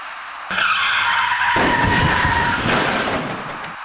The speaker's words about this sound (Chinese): 然而就在这时，一起相撞事故发生了。您注意看画面中箭头所指的那辆厢式货车，